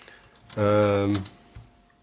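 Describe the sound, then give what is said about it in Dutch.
Typing on a computer keyboard while entering a message in an online discussion forum: a run of quick, light key taps, partly covered midway by a sustained voiced sound that then fades back to scattered clicks. “Ik zet hem op het discussieding. Maar ik moet meer tekens typen volgens het eigenwijze systeem.”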